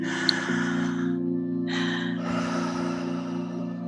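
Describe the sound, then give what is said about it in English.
Breathy rushes of air from a deep breath, drawn in and let out in a few long airy phases, over a constant electrical hum. “So let's just take a deep breath.”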